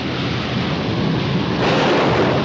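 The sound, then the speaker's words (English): Heavy rain pours down in a windy storm as a family runs for cover. The hiss and roar are dense and steady and swell louder about two-thirds of the way through. “Outside, leaves blow in the wind as the family minus Ernest hastily moves through sheets of pouring rain.”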